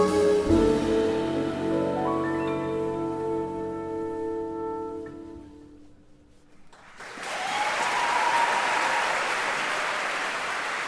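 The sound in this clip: Audience applause at a concert marking the reopening of a concert hall: the final sustained notes ring out and fade, a brief hush follows, then dense, continuous clapping swells and holds for several seconds.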